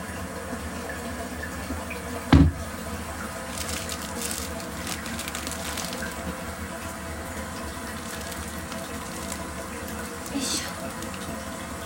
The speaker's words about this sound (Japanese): この液体も汚いので流しましょう。